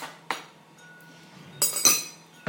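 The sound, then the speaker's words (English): Bowl and spoon taken out of a cupboard give a few sharp clinks of crockery and metal: one brief tap, then a cluster of bright rattling clinks, and a final click, with no voices. “get a bowl and spoon out of the cupboard. There's a bowl and a spoon.”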